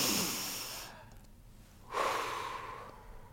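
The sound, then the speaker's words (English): A group of people breathe together during a mindfulness pause, with two long, airy, breathy sounds separated by a quieter gap. No voices are heard. “And speaking of mindfulness, so everyone, take one breath with me.”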